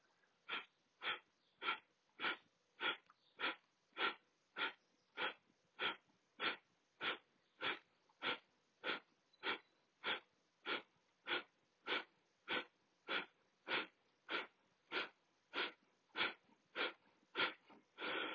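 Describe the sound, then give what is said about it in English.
Rapid breathwork through the nose during a guided meditation: many short, forceful breaths repeat at a fast, very even rhythm, each a hissing, airy puff, with no talking. “One full out breath out through the nose. A partial breath in through the nose. And then we'll begin 30 rounds.”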